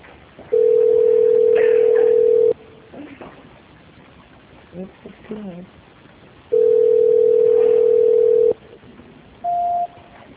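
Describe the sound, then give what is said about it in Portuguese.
A telephone tone plays while a call is being transferred: two long, steady beeps of about two seconds each at the same pitch, with a quiet stretch and faint voice sounds between them, then one short beep at a higher pitch. “Só um minutinho, dona Maria Elizabeth, que eu estou transferindo a ligação”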